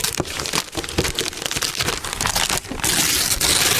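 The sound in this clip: Wrapping paper crinkles and rustles as a gift is unwrapped, in a dense, continuous crackle that grows louder and fuller toward the end.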